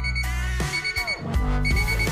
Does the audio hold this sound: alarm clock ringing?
yes